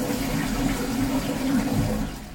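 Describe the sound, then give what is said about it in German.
A toilet flush: a steady, loud rush of water runs unbroken from start to end and fades slightly at the close. “Ja, die Klospülung.”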